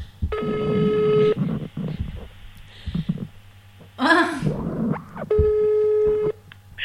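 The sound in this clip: Ringback tone of an outgoing telephone call: two steady, loud tonal bursts of about a second each, separated by a gap in which a person speaks.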